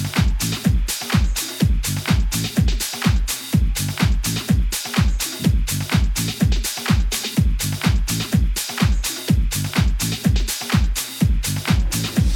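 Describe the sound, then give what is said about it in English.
House music drives along on a steady four-on-the-floor kick drum thumping about twice per second, under sustained bass and synth chords at even loudness, with no voices. “This is the sound of house music.”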